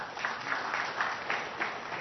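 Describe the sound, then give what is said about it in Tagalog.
Congregation applause for the Lord during a church service: steady, even crowd clapping with a regular pulse, moderately quiet and continuing throughout. “Palakpakan natin ng Panginoon.”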